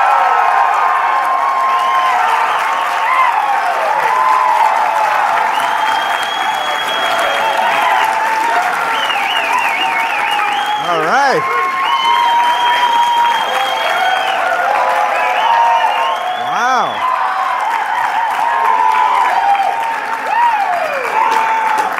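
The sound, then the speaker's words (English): A live audience at a libertarian conference applauds and cheers in a sustained roar of clapping for over twenty seconds. Scattered whoops and shouts rise above the steady wash of clapping throughout. “So can you crazy libertarians make some noise so that...”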